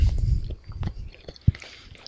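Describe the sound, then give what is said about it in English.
Chewing on a dry fig-cookie snack that turns pasty: a few soft, faint bites and moist mouth sounds, with one slightly sharper crunch near the end. “Kind of dry. Tastes kind of like a bad Fig Newton. Gets pasty.”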